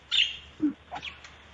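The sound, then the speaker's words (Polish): A pet budgerigar chirps: a few short, faint tweets of varying pitch, separated by brief pauses and heard alone. “To jest ptaszek. Bardzo dobrze. A ja ci podpowiem, że takie dźwięki wydają papuszki faliste.”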